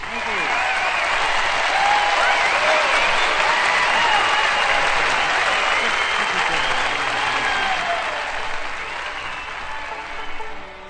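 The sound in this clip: An audience welcomes bluegrass singer Mac Wiseman with loud, sustained applause and a few cheers, steady for most of the stretch before easing slightly at the end.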